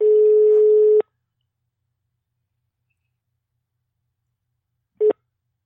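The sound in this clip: Ringback tone of an unanswered telephone call: one steady mid-pitched tone lasting about a second, then several seconds of silence, then the brief start of a second tone. No voices.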